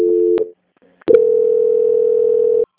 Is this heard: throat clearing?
no

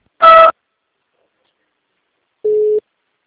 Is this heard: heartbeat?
no

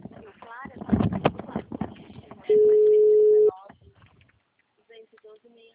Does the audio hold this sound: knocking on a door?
no

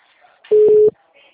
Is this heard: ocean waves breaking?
no

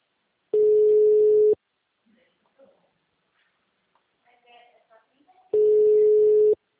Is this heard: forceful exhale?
no

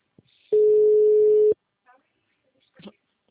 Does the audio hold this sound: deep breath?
no

